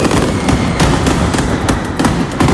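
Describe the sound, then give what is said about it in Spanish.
A mascletà firecracker barrage fired at 2 pm in Plaza de los Luceros, Alicante, during the Hogueras festival, pounds out as a loud, unbroken rattle of blasts packed so tightly they merge into one roaring wall of cracks. “Así sonaba hace tan solo unos minutos la primera masqueta disparada en la Plaza de los Luceros a las 2 de la tarde.”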